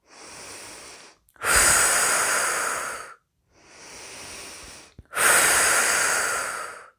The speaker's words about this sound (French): Et à chaque expiration, nous évacuons les tensions.